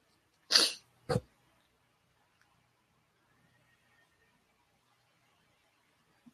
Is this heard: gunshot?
no

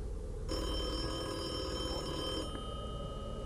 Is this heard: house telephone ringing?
yes

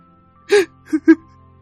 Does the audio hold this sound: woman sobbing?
yes

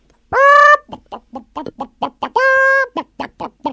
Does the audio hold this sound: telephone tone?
no

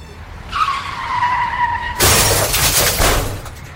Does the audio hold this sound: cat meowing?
no

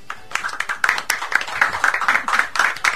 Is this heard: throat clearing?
no

